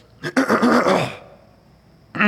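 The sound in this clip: A person clears their throat to dislodge something stuck in it: a brief catch followed by a longer, raspy, voiced rumble, fairly loud and alone, with another sound starting just at the end.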